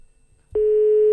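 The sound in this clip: A telephone line tone on a call that goes unanswered: a loud, steady, mid-pitched electronic tone that starts abruptly after a moment of near silence and holds unchanged.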